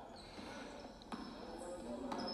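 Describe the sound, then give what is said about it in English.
A basketball is dribbled on the court during a championship game. A couple of sharp bounces stand out over steady background noise. “Ryan Trotty dribbling it up.”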